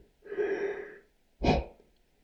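A person takes a breath, heard as a soft, drawn-out airy breath followed by a short, sharper puff of air. Both are faint, with no talking.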